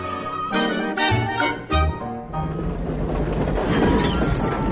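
Train sound effect: tonal notes ring out at the start, then a steady, loud rumble and clatter of railway wheels carries on to the end.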